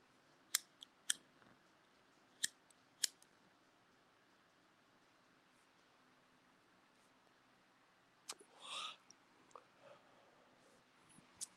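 Sharp clicks of a lighter flicked to light a cigarette: four brief, crisp ticks spread over the first few seconds, then a quiet stretch, and a longer, rougher burst later on.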